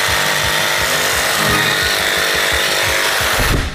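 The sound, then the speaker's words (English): A power tool carves a square wrench blank into a round, cylindrical shape with a loud, continuous whirring grind and a rapid rhythmic pulsing underneath, the tone shifting just before the end; no talk. “Alright, well, we need a lot of carving because this thing is square and it needs to be round.”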